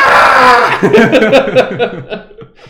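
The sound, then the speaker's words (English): A voice imitates a cougar's mating scream with a harsh, drawn-out cry, then breaks into chuckling laughter. “Cougars, when they're mating, make the most horrific scream. Oh, I've heard that. They go, like,”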